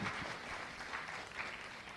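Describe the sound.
Faint, steady applause from an audience welcoming the city mayor at a religious gathering on the importance of women in Islam. The clapping is soft and even, with no clear peaks.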